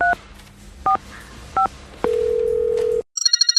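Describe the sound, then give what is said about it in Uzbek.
Telephone dialing on an outgoing call: three short paired key-tone beeps, then one steady, even ringback tone lasting about a second, followed by a quick burst of high, rapidly pulsing chirps. “Yana bir marta telefon qilib ko'raychi.”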